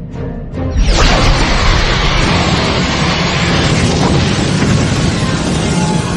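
A torpedo shot being fired erupts after a brief quiet lead-in as a sudden loud burst of broad, roaring noise, then holds as a heavy rushing rumble to the end.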